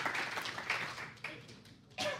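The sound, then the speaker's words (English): Audience applause at a morning gathering for a helper setting up a bonfire, clapping that fades gradually before a fresh burst near the end, with speech heard alongside. “So if you guys can, please give him a round of applause.”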